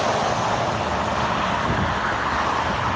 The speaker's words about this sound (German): Das sind so die Geräusche, die wir den ganzen Tag hören, wenn wir auf dem Seitenstreifen der Autobahn fahren. So hört sich's an.